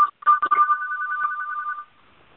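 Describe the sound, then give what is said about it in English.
A phone rings with an electronic ringtone, a single steady warbling high tone pulsing rapidly for under two seconds before cutting off, with no voices. “That's my phone. It looks like a robocall.”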